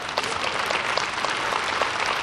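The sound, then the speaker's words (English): An audience claps during a worship service, with steady, dense applause that holds at an even level throughout without a break. “Now you can clap and praise the Lord.”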